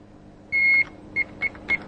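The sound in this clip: A heart monitor connected to a patient beeps once with a longer tone, then gives three short, evenly spaced beeps at the same pitch over a low background hum.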